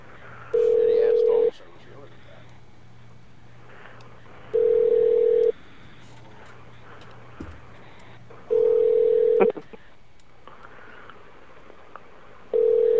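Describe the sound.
Telephone ringback tones sound while a call waits to reach voicemail. Each tone is a steady, even buzz lasting about a second, repeating at regular intervals of a few seconds over a faint line hiss.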